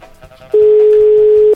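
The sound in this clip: A telephone ringback tone while a call connects: one steady, loud, mid-pitched beep lasting about a second, preceded by faint background noise.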